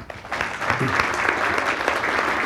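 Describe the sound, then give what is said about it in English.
Applause from an audience welcoming a speaker to the stage, with many hands clapping in a dense, continuous patter. It swells quickly at the start, then holds steady at moderate loudness. “It always makes me nervous when people applaud me before they hear me.”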